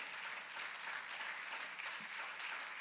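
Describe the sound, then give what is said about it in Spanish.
Applause from a church audience during worship: a faint, continuous wash of clapping that holds without a pause from start to finish, with no speech. “Un fuerte aplauso. Let's give a strong hand praise to our God.”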